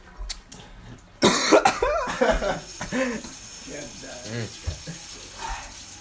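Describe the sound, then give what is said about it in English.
Hands being washed under a running tap give a steady wash of water beneath people talking, with a cough near the start. “Oh, yeah, I am washing my hands.”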